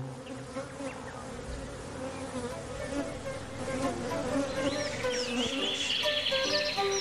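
Bees buzzing among fragrant flowers in a meadow: a steady, continuous drone of many insects wavering in pitch over a low hum, growing slightly louder in the second half, with no talk.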